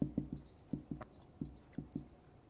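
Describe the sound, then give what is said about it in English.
Handwriting on paper at an angle: faint, scratchy pen strokes in quick, rhythmic bursts, many short scrapes following one another with brief pauses between them. “This is where my writing gets really bad. Okay. Writing on an angle.”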